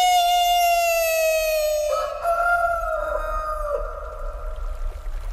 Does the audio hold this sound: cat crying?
no